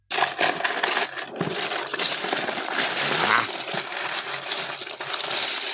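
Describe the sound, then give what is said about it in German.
Hands rummage through a box of plastic Lego bricks, making a continuous dense clatter of small pieces rattling and knocking together for several seconds, with no voices. “Ich vermute, das ist so Ausschütten von so einer Lego-Box? Nein, also wir haben da ein bisschen drin gewühlt. So rumgewühlt eben. Ist das eure Lego-Box? Ja.”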